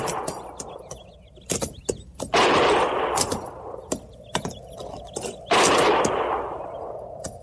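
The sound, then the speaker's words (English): Gunfire from low hills: many sharp, loud cracking shots in irregular bursts, with two longer stretches of dense, roaring fire. “Didn't sound like no regular shooting.”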